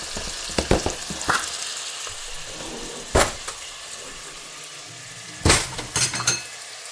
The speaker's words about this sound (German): So, dann hole ich schon mal einen Löffel, das Mehl.